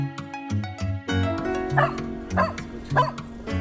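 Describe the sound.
A dog gives many short, sharp yips and barks, some loud and some quieter. They come in an uneven rhythm over a steady tonal background.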